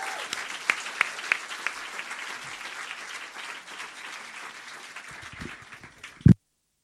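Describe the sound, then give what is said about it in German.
Audience applause welcoming a comedian at a show in the Ratskeller: steady, moderately loud clapping with a few sharper claps early on. It thins toward the end and finishes with a single loud thump. “Der kommt aus Nürnberg und bekommt natürlich auch wieder einen herzlichen Willkommensapplaus hier im Ratskeller.”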